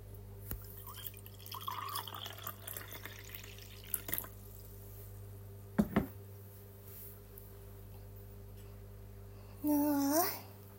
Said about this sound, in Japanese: 今1リットルの3分の1ぐらい飲んだかな。次を注いでいきますね。